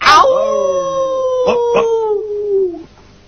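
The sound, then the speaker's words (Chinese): A dog's drawn-out, howl-like cry from a 1987 Cantonese-dubbed cartoon, a loud tonal wail that slides slowly downward in pitch over about three seconds, with two short bursts midway before it fades. “听到呢啲咁样嘅吠声，我就知佢而家冇作怪，我可以放心啦。”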